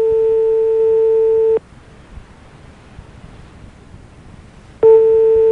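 Telephone busy tone during a call being transferred to the police or gendarmerie: a steady, fairly loud electronic tone sounds, cuts off into a few seconds of quiet hiss, then resumes.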